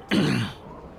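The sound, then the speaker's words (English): A person clears their throat once, a short gravelly rasp that starts abruptly and loudly, then fades into quiet. “Someone please address the person clearing their throat behind him.”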